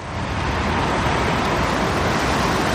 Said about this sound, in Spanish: El tráfico intenso, el sonido del tráfico constante, como este que empezamos a tener ya aquí, como ves, como estás escuchando,